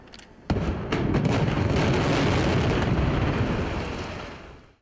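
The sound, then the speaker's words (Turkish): Dynamite charges fire one after another to bring down a 48-year-old historic building in a controlled demolition: a sudden loud blast and a quick run of sharp cracks swell into a long, dense, roaring rumble that slowly fades. “Ardıl şekilde ateşlenen dinamitler peş peşe patladı. 48 yıllık bina kontrollü şekilde saniyeler içinde yerle bir oldu.”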